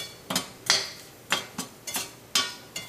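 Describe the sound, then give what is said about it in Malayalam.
A utensil stirs turmeric powder into a cooking pan over low heat, making a series of sharp, irregular metallic clinks and knocks against the pan with short gaps between them. “തീ നന്നായിട്ട് കുറച്ച് വെച്ചിട്ട് മഞ്ഞൾപ്പൊടി ചേർക്കാം ഒന്ന് mix ചെയ്ത്”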